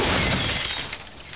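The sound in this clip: A glass coffee table thrown off a building shatters in one loud, noisy crash of breaking glass. The sound is somewhat muffled and fades over about a second. No voices are heard.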